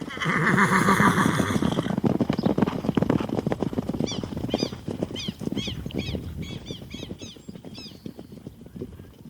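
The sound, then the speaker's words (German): Horses neighing and hooves clip-clopping as riders mount up. A loud whinny opens, then many rapid hoof strikes follow, with further shorter high whinnies scattered through the sound of the moving horses. “Aufsitzen, Deputy. Wir reiten nach Plemonsville.”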